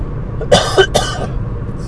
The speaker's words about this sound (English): sorry about the cough there. Still recovering from a cold.